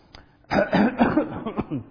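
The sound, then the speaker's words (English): A voice puts on a staged cough, several hoarse, raspy bursts in quick succession with a throaty edge. The coughs are loud and breathy against an otherwise quiet background. “Real cough.”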